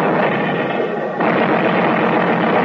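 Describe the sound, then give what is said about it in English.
Naval artillery barrage as a dense, continuous roar of heavy gunfire, loud and sustained with no clearly separate blasts, the texture shifting slightly partway through. “We're going to make a break through the pass under the cover of the Navy barrage.”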